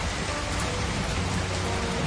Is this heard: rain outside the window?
yes